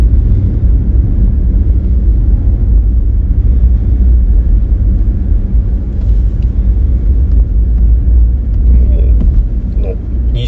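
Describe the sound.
Steady low engine rumble from a car with a large, powerful engine, driven along a road in third gear. The rumble runs continuously and evenly at a fairly loud level for the whole stretch.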